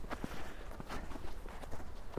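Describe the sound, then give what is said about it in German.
Footsteps crunch up the snow- and ice-covered steps of the largest ski jump in Oberwiesenthal, a steady, faint series of trudging treads on slippery footing. “Ein guter Tag, um hochzustapfen auf die größte Sprungschanze des Ortes, die Fichtelbergschanze.”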